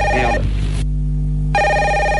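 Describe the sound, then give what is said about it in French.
A telephone rings with a bright electronic tone. The ring stops, a short pause follows, and then it rings again at the same loud level. “Ah, en plus il y a votre téléphone qui sonne.”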